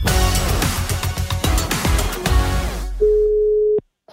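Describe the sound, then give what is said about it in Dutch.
A telephone ringing tone while a call is placed: one steady, mid-pitched beep lasting under a second, coming right after music that stops abruptly. “Dus even bellen met Wessel om te kijken hoe het staat met dat nieuwe boek.”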